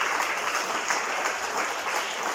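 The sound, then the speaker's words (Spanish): A church audience applauds the Lord during a service with dense, even clapping that stays loud and continuous from start to finish. “Dale un aplauso al Señor, por favor, esta tarde.”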